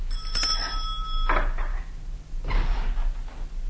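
A hand bell rung to summon a servant in a lady's household gives a bright, sustained ringing with several clear overlapping tones that fade after about a second and a half, followed by softer, quieter sounds.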